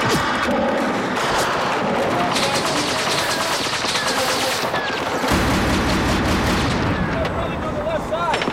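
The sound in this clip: Heavy gunfire in an Iraq war zone: dense, rapid shots run together into a continuous loud barrage for the whole stretch, with voices audible beneath the firing.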